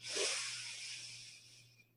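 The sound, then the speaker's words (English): A single deep inhale drawn in through the nose, a faint airy hiss that swells early and slowly tapers off over about two seconds, with no talking. “taking a deep breath in through our nose”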